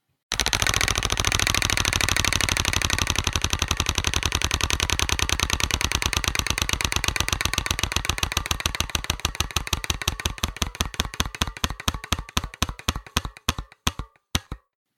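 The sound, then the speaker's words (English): A roulette wheel spins with a loud, rapid clatter of ticks that gradually slows, the clicks spreading farther apart over about fourteen seconds until the wheel stops. “Spinning the wheel right now.”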